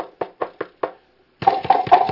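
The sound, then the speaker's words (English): Five sharp knocks on a door land in a quick, even series, then a short pause before a louder, denser burst of sound follows. “That was my second knock, okay? I made sure.”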